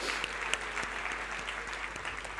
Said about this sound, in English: Give them a round of applause, driving 3 hours to get here.